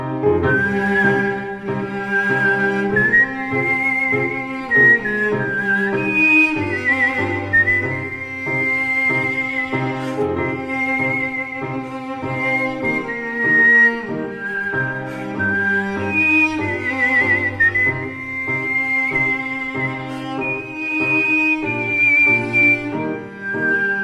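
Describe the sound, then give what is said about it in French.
Whistled melody from a whistling sextet performing a slow classical andante: a high, sustained tune over steady lower harmonies, continuous and unbroken, with no talk. “Comme dans l'Andante con moto de Franz Peter Schubert, interprété par le sextuor du siffleur.”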